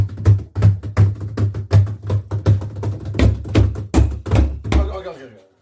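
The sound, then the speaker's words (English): Drum roll tapped out by hand: many dull, knocking thumps in a steady, brisk rhythm, fairly loud and even throughout, ending with a final louder cluster of taps. “I wonder what's in the box. We're going to find out. Because it says... Drum roll, please.”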